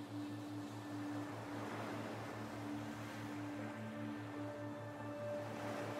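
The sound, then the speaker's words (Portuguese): Ocean waves on a beach: a soft, steady wash of surf noise, quiet throughout, beneath a low pulsing hum and faint sustained tones. “observando as ondas, o som do mar, relaxante.”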